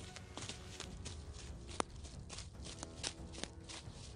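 Quick, faint footsteps as someone runs away from a compound as fast as he can, forming a steady patter of many light steps with a few sharper impacts.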